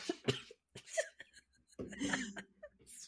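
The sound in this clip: Coughing from a tickle in the throat: a few short, harsh bursts at moderate loudness, followed by a longer stretch of voiced throat sound.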